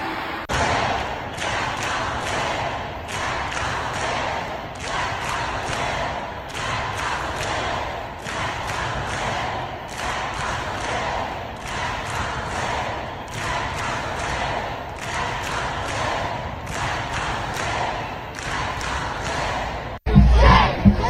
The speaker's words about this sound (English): This is at the U.S. Capitol today. People stormed into the U.S. Capitol. Pro-Hamas protesters.